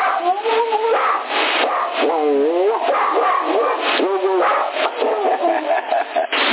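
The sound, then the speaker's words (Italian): Dog yipping and whining, with a run of short, high, sliding cries that rise and fall in pitch. The sound is thin and band-limited, over a constant background hiss. “fa troppo, è troppo simpatico questo cane, vieni tu da papà, sì.”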